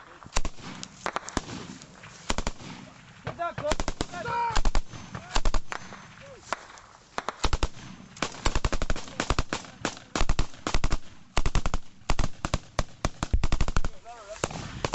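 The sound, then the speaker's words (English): Gunfire in a military gun battle: many sharp cracks and rapid bursts of shots come in irregular clusters, some sustained like automatic fire, with brief lulls between volleys and voices heard at moments among the shooting. “And then it kicks off. The gun battle will last 5 minutes.”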